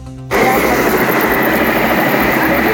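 A helicopter takes off near a burning tire-recycling warehouse with a loud, steady rotor and engine roar. The roar surges in abruptly after a brief lower hum and then holds constant.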